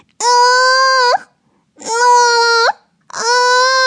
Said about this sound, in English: clutching her wailing baby tight against her chest.